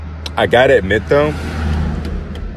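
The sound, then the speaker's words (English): A car drives past outdoors: a broad, steady road rumble swells after a short stretch of talk and carries on to the end. “sorry about the cars driving by. I thought I found an isolated place. Of course, it was quiet for the first 5 minutes. And then the moment I hit record, oh, car is coming.”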